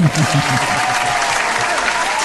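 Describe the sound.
Audience applause welcoming a guest, a steady, dense wash of clapping that holds at an even loudness for the whole stretch.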